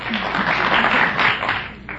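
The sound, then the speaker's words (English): Studio audience applause on a TV quiz show: a brief, dense burst of clapping at moderate loudness that tapers off near the end. “Some people out there from Fonjilac were applauding.”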